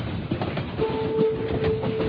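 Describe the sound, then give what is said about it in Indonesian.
A train slowing down on the rails, heard as a steady low rumble with rhythmic clatter; a sustained high squeal joins partway through and holds to the end. “kulihat kereta ini menurunkan kecepatannya. Kini kereta berjalan sangat pelan.”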